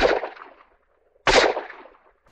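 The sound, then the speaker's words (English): Two revolver shots, each a sharp loud crack with a fading ringing tail, spaced about a second apart with silence between them. “Two revolver shots told me his rifle was out of commission also, and that he was hiding near the abandoned Lucky Johnson mine shaft.”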